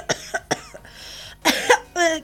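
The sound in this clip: An elderly man coughs at a pharmacy counter: several short, rough hacking coughs in a loose sequence, then heavier, throaty coughs that end in a voiced rasp.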